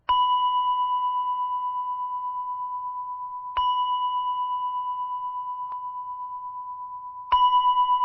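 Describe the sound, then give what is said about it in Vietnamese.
Three evenly spaced strikes of a shrine bell at a village shrine or communal house. Each strike gives a bright, steady ringing tone that sustains and slowly fades until the next strike, a few seconds apart. “đây là chuông chùa, còn chuông này là không phải của nhà chùa. 3 tiếng chuông này không phải chuông của chùa. Chuông này là chuông của miễu”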